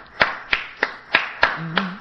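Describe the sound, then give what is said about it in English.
Six crisp hand claps ring out at an even, moderate tempo, with a brief voice sounding under the last one. “What is up with the clapping? What are you doing?”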